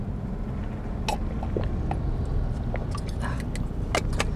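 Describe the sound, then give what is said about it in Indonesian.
Steady low road rumble from inside a car on a long drive, a constant dense hum with a few small clicks and clinks scattered over it and no talk. “kembali di perjalanan saya di mobil karena perjalanan cukup jauh”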